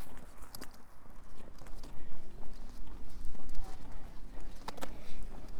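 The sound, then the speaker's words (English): Footsteps walk down a path into Crackington Haven village, a steady series of soft crunching steps over light background noise. “Just walking down the path into the village.”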